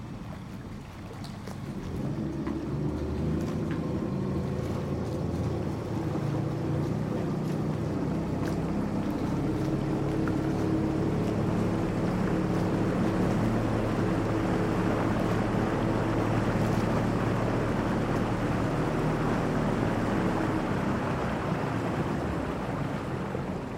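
A boat travels across the sea through waves, its steady low rumble blended with a continuous rushing wash of water, loud and unbroken for the whole stretch with no talking.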